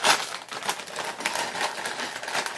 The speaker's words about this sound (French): Donc si on regarde, ça me permet d'ouvrir le paquet.